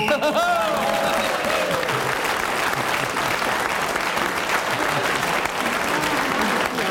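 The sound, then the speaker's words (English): Audience applause from a crowd, a dense steady wash of clapping that holds at full level for several seconds, with a voice briefly audible at the start. “He certainly deserved his round of applause for keeping going”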